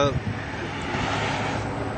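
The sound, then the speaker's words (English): Police helicopters fly directly overhead above a Fox Lake neighborhood during a search, making a steady, broad engine rumble. The whir stays even and continuous with no clear rise or fade. “The helicopters are back up in the sky now, and they're directly overhead.”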